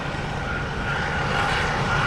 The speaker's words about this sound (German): Auf dem Vorfeld des Frankfurter Flughafens wird gerade ein Flugzeug abgefertigt. Um es herum ein Gewusel an Fahrzeugen.